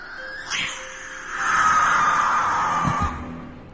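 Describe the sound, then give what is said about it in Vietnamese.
A barn owl screeching: a long, harsh, hissing cry that swells and holds for over a second before cutting off, with a few short bursts before and after it. “Con cú lợn không biết đậu ở đây được bao lâu. Sau đó, nó nhìn nghiêng nghiêng cái đầu, rồi đập cánh phành phạch, kêu lên vang vọng.”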